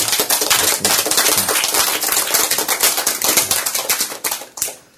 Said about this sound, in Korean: 박수.